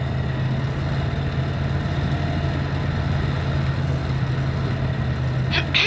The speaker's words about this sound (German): Eine Zeit lang rollt das Fahrzeug im Dunkeln dahin.